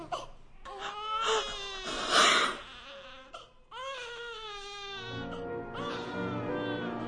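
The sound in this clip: A newborn baby girl cries in loud, wavering wails, several bursts separated by short breaths and a brief pause, with rough, strained edges and no adult voices.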